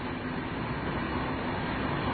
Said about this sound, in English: Here's another train. This is... another S-Bahn going on the other track there, heading outward.